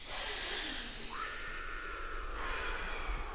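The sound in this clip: A deep breath, drawn in as one long, snorting intake with a breathy, nasal edge, sitting over a low background hum, with no talking.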